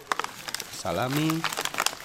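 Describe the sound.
A bag of food crinkles as it is handed over at a free food distribution, with sharp, irregular rustles throughout and a short voiced sound from a person in the middle.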